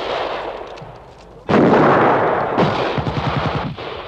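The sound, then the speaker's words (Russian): Gunfire from a unit shooting down from a hilltop: after a quiet opening, a sudden loud blast of dense firing erupts and keeps roaring, with rapid rattling bursts near the end and no talk. “Отряд Олейникова стреляет по бандеровцам сверху холма.”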